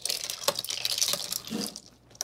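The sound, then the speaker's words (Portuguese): Spoon stirring a drink topped with citrus soda, giving a few sharp clinks over a soft, steady rustling hiss, with no talking. “E um pouco de refrigerante citrus. Vamos mexer, assim como o nosso alcoólico.”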